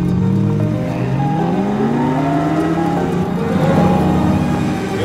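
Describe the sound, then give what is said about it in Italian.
A Ferrari engine revving and accelerating, a loud continuous drone whose tones climb in pitch through several rises, staying full and steady throughout without voices. “Ma quanti di loro guidano una Ferrari? Pronto? Sì! Andiamo!”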